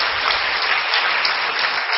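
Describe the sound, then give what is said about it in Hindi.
An audience claps on cue from a speaker: a short, steady burst of many hands clapping together, even in loudness throughout, with no voices over it. “ताली बजा दीजिए। हाँ, कंजूसी नहीं करने की ताली बजाने, तभी तो खुशी आएगी ना।”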